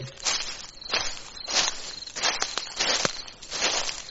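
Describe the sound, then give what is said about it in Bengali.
Human footsteps move through overgrown grass among old graves. Several uneven, rustling steps crunch at an irregular pace, each a short crisp burst against a quiet background. “আমার মনে হলো বহু শতাব্দী পরে এই প্রথম এখানে মানুষের পায়ের শব্দ শোনা যাচ্ছে।”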